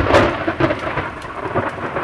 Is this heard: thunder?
yes